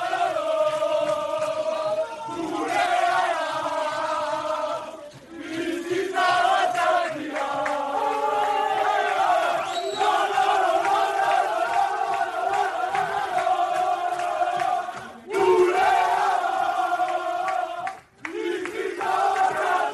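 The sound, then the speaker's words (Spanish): A football team celebrates a 4-1 win over Real Valladolid in their dressing room, with loud, sustained group chanting and singing. The chanting dips briefly a few times and then surges back. “Íñigo, confirmamos, ¿no?, que esto es de ayer del vestuario. Sí, confirmamos. La verdad que el sonido, impresionante, ¿eh?”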